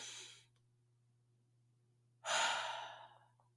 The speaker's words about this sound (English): right now I just want everybody to take a deep breath. Just a good one from the heart.